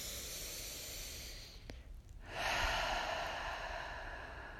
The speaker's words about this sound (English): So I'd like for you as well to take a deep breath right now. Close your eyes. Take this deep breath with me.